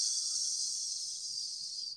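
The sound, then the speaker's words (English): A slow, gentle exhalation during a relaxation breathing exercise, a soft, steady airy hiss held for about two seconds before it fades out. “And then I repeat the next exhalation.”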